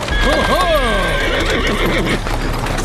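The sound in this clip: A horse pulling a hired horse-drawn cab whinnies loudly with a wavering, falling pitch, standing out over steady background noise.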